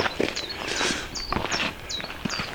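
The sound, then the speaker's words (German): A common chiffchaff sings a series of short, high, repeated notes in a steady rhythm, heard over the crunching footsteps of walkers. “der uns jetzt gerade ein bisschen begleitet. Wer hat uns begleitet? Der Zilpzalp. Noch einer da drüben.”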